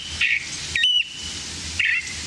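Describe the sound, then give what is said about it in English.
A California thrasher sings in thick chaparral on a January morning in Contra Costa County, California. Three short, clear whistled phrases are separated by pauses over a steady faint hiss. “this thrasher is singing out on a January morning in Contra Costa County, California, to insist that the nearby competition stay away.”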